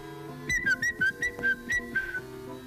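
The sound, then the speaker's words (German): A human whistle call used to summon a Rehpinscher dog, a quick run of about eight short, bright whistled notes at a high, fairly steady pitch over a soft low background hum. “Das war sein Pfiff. Dann ist er immer gleich gekommen.”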